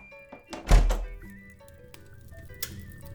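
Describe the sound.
A door is shut quickly with a single heavy, low thunk that rings briefly and fades. A faint click follows later.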